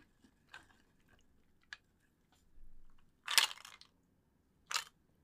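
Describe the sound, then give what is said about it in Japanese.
Peanuts being eaten, with a few crisp crunching bites and chews separated by quiet gaps. The sounds are faint and sharp, with no talking. “ピーナッツいただきます。”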